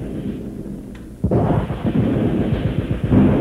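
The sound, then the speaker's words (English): Light tanks and armored cars of a relief column approaching: quiet at first, then a sudden, loud, deep rumble with rough rattling texture that continues throughout. “Tanks! Listen to them coming! There must be hundreds!”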